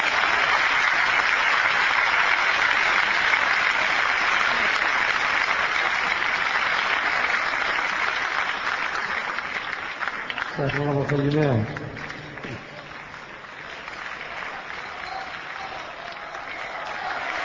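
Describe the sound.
Audience applause at an Arabic poetry recitation, dense clapping that gradually thins and dies away, broken by a brief vocal cry before fading to a low murmur.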